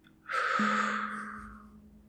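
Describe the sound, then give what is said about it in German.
A deep breath: one long, airy rush of breath that starts suddenly and fades slowly, with a faint low hum underneath. “Atme tief durch die Nase ein und langsam durch den Mund aus.”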